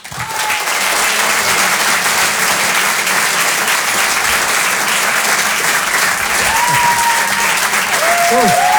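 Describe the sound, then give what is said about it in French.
Audience applause in a Paris comedy club greeting a comedian on her first night: a dense, even wall of clapping that stays loud throughout, with a few voices surfacing near the end. “d'applaudir très fort pour sa première ce soir sur Rire et Chanson Comedy Club, Amy Landon.”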